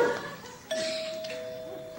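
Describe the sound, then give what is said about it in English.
Doorbell rung by a guest arriving at a house door: a brief first note, then a second chime tone that rings on and slowly fades. It is clear and fairly loud, with no voices. “Now guests must ring the bell.”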